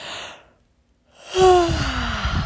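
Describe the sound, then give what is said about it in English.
A person fakes a yawn: a breathy inhale, a brief silent pause, then a drawn-out voiced exhale whose tone slides steadily downward in pitch. “And even hearing me try to yawn is probably going to help you do it.”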